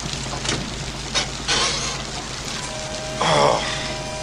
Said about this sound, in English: I like how it's raining on one side of the screen and not the other.